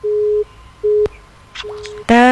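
Telephone line tones after a call drops: a few steady mid-pitched beeps separated by short gaps, then a louder, buzzier tone at the end.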